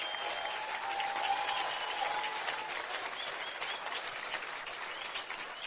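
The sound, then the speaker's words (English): Audience applause as a guest, the speaker's wife, is welcomed and stands up; dense, even clapping that continues steadily at moderate level for the whole stretch. “Please welcome my darling wife, Ruth Monroe. Please stand up. Give her a hand.”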